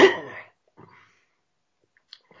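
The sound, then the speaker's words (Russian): A man's loud, sharp cough after choking on tea, a short burst at the very start followed by a few faint small sounds. “Это закашлялся при упоминании Хазина. Чаем, чисто чаем поперхнулся.”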